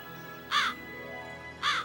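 Two harsh crow caws ring out clearly, the birds being scared off by a scarecrow made from a small coat and shoes in a garden. The calls are separated by a second of quiet background.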